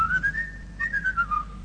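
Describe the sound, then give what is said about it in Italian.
Human whistling imitates a blackbird's song in two clear, tuneful phrases, the first climbing and holding, the second stepping downward, over a soft low instrumental backing. “Su quel ramo del lago di Como c'è un merlo che fa. Quando fischia il suo pomo d'Adamo saltella qua e là.”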